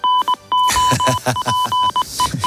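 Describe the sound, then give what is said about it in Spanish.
Goal alert jingle from the sports show Tiempo de Juego, opening with a few short electronic beeps and then a run of pulsing, rhythmic tones, loud and clear, with no speech. “Suena el aviso de gol del tiempo de juego.”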